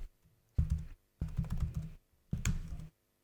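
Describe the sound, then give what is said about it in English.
Keys clatter on a computer keyboard in three quick bursts of typing separated by short pauses, fairly quiet and without talk. “I'm going to type it to you.”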